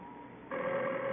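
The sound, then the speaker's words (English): A telephone rings, a steady, moderately pitched tone that starts about halfway through over faint background hiss and holds to the end. “the phone. I know it's the phone.”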